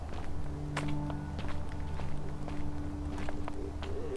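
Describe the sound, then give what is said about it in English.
Footsteps of someone walking into a state park while carrying a large duffel bag and an old metal detector, a steady run of soft treads over a constant low hum. “After about 20 minutes, I get to the sign for the state park and walk in.”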